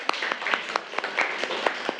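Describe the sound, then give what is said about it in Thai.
Students in a classroom clap for a classmate who has just presented. Scattered, sharp hand claps come unevenly in quick succession for about two seconds, from a small group rather than a full crowd. “ปรบมือเพื่อนหน่อยค่ะ”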